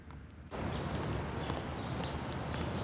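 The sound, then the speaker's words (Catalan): A man walks down a street, his footsteps a steady series of hard taps on pavement against a broad street hiss that swells in after a brief quieter moment. “L'Ivan camina pel carrer i s'atura davant d'un portal.”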